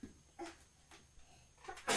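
A single sharp sneeze bursts out loudly at the very end, after a stretch of quieter, scattered sounds.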